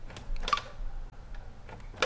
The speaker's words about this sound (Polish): sprawdźmy przyciski od góry na urządzeniu, gdybyśmy tej klawiatury nie podłączyli